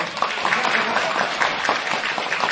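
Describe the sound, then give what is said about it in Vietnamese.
An audience claps its hands in a thick, continuous patter that holds a fairly even loudness throughout. “Vỗ tay đi.”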